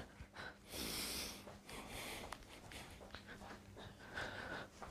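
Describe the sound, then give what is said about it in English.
Deep breathing in and out during exercise, a few heavy, breathy rushes of air at an uneven rhythm, fairly faint and with nothing else heard. “Control your breathing. Deep breaths in through the mouth and the nose, and exhale out as well.”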